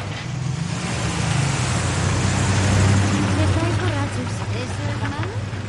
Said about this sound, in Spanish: El coche entra en la parcela de Sharon.